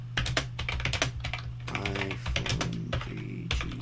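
Typing on a computer keyboard: many quick key clicks in irregular bursts over a steady low hum.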